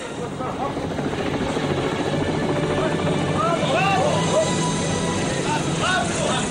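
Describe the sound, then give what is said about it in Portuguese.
Helicopter rotor and engine, a steady, loud whirring drone that holds for the whole stretch, with voices calling out over it. “Podem trazer o helicóptero!”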